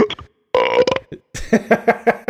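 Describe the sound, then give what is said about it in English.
A loud, croaky human burp breaks out in a few voiced bursts, rough and drawn out, with no talk around it. “A burp for JD.”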